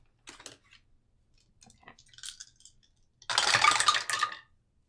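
Dice rolled during a tabletop role-playing game: a few faint clicks, then a dense, loud burst of rattling and clattering that lasts about a second.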